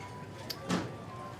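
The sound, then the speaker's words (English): A latch closes and locks above a ladder that leads down into a dirt-floored passage: one short, muffled clunk stands alone over a faint, steady hum. “The sound of the music and the chatter vanishes up ahead, and you hear, as soon as you all head down the ladder, a latch close and lock above you.”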